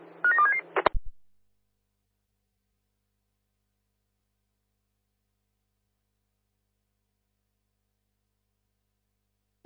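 A telephone is being dialed, giving a quick run of several touch-tone beeps in the first second. Long silence follows, and a single sharp click comes at the very end.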